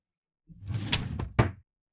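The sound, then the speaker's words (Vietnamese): A key rattles in a house door lock as it is opened at night, a short clattering scrape punctuated by a few sharp clicks, the last the loudest, with nothing else heard. “Một lúc sau thì tôi nghe thấy tiếng lạch cạch mở khóa.”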